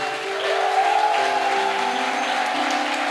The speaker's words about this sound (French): Est-ce que tu peux acclamer Dieu pour le cœur